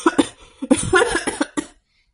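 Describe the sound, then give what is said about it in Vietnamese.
An old emperor's dry, hacking cough: a rapid run of several rough, raspy bursts in uneven succession, loud and alone, ending abruptly in silence. “Lão hoàng đế bị đả kích ho khan không nói nên lời.”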